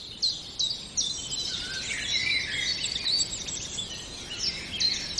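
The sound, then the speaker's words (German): Common chiffchaff singing: a run of high, bright chirping notes repeated in an uneven sequence, fairly faint, with no voices. “Jetzt müsste der Zilpzalp schön zu hören sein.”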